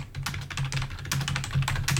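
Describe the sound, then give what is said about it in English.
Rapid typing on a computer keyboard, many quick clicking keystrokes in a busy, uneven rhythm at a moderate level. “Do you want me to just type real quick and see if I can figure it out?”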